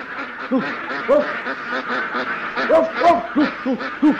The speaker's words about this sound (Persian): هی هی کجا داری میری؟ هی اردکا دارم فرار میکنن.